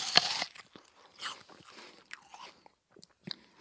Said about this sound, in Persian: موقع نهار داشتم یه دسر خوشمزه می خوردم، ولی تصمیم گرفتم به جای اون سیب بخورم.